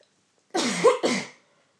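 A person coughs twice in quick succession, two harsh, throaty bursts, loud and alone against silence.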